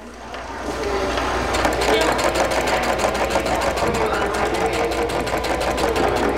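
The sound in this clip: A sewing machine runs at a sewing workshop where ribbon skirts are being made, producing a steady, rapid stitching rattle with a continuous mechanical hum throughout.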